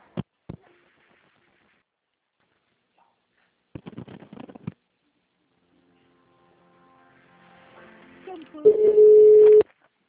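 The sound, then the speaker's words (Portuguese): Telephone ring-back tone on an office extension that no one answers: a sustained, low, steady tone near the end, preceded by a few brief, muffled bursts of sound. “A Andressa, eu tô tocando no ramal dela, mas ela não atende.”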